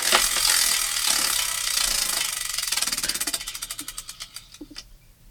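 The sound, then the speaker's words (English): A prize wheel spins with a dense run of sharp ratcheting clicks that slow steadily and spread apart until it stops. “let's go to another spin here on the wheel of Chingadera.”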